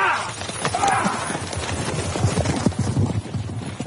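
Horses ridden toward the hills clip-clop in a busy, uneven patter of many hoofbeats, moderately loud and continuous throughout.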